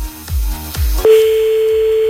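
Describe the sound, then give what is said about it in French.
A phone call going unanswered and reaching voicemail: a few low thumps, then a steady, continuous tone that sounds and holds unbroken to the end. “Bon, bah, on va appeler un autre là, il décroche pas celui-là, c'est pas grave.”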